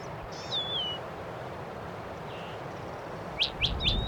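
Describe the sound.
Goldfinches calling: a few thin, high chirps over steady low background noise, with one descending whistled call early on and three quick rising chirps near the end.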